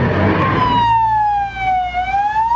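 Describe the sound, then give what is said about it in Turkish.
Ambulance siren arriving at a port after a chemical container leak, a single loud wailing tone that slides slowly downward and then begins to climb again, with low engine rumble at the start. “5. ambulans geldi abi.”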